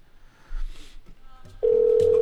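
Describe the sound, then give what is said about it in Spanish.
Ringback tone of an outgoing telephone call, a loud, steady single-pitched tone that starts after a short stretch of faint, muffled noise and holds to the end. “Ahí está timbrando.”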